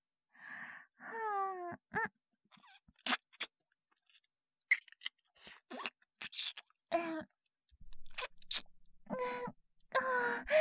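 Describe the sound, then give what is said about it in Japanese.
Wet licking and slurping on a hand comes in many short, uneven bursts of mouth sounds, mixed with soft voiced moans between them. “まずは、手の全体を舐めちゃいます。”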